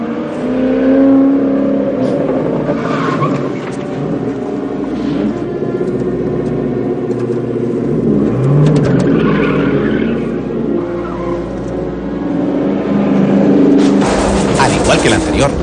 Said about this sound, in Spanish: Se marcha mientras otro coche deportivo se acerca al tráiler a toda velocidad.